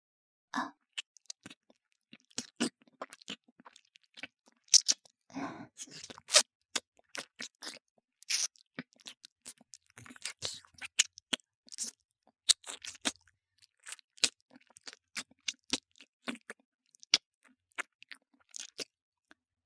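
Wet tongue-licking sounds on an ear: many irregular moist clicks, smacks and slurps with no talking.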